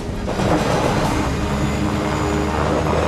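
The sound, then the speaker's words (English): An airplane flying low near mountains through a snowstorm gives a loud, steady roaring engine drone. The roar swells briefly near the start and then holds evenly without a break. “The aircraft flies dangerously close to the mountains as snow lashes the plane.”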